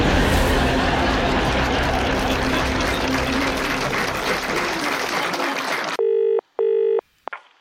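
Telephone keypad tones dial a voicemail number: three sharp beeps, the last one brief, ring out alone right after a long stretch of loud, rushing noise cuts off.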